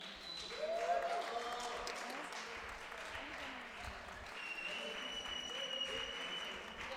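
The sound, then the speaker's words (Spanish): Audience applause closing the first edition of a son jarocho music festival: a steady, sustained wash of clapping fills the whole clip at even loudness, with no pause. “Por favor, un aplauso.”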